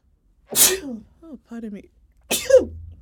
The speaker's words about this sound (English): Which is probably not a good idea because I sneezed.